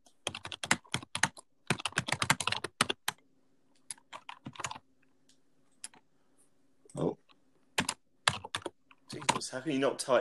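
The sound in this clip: Fingers typing on a computer keyboard: quick bursts of sharp plastic clicks that stop and start, with a denser run of keystrokes near the end.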